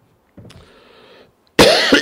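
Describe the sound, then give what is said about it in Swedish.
Coughing from a preacher during a sermon: a quiet, raspy throat sound, then after a brief pause a loud, harsh burst of coughs. “Jag hostar på hela vägen hit, så förlåt”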